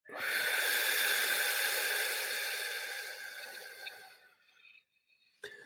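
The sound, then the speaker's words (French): A long, forceful exhale through the mouth during a guided breathing exercise, a loud airy hiss that holds for about four seconds before tapering away, then one brief sharp breath at the end. “Alors c'est parti, on va inspirer ensemble. Et on expire bouche.”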